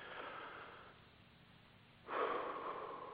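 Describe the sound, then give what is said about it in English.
Deep breaths taken during a guided breathing exercise sound soft and airy. A long gentle exhale fades into a quiet pause, then a stronger, fuller breath begins and continues steadily. “I invite you to take a deep breath with me here. Deep breath again.”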